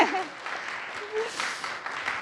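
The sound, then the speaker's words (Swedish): Applause from the audience at a church children's Bible drama on stage, with steady, dense clapping at moderate loudness and faint voices mixed in. “Tack så mycket. En applåd.”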